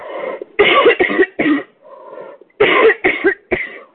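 Harsh coughing from a person with a tickle in the throat: several loud, abrupt coughs in two clusters separated by a brief pause, with quieter throat sounds in between.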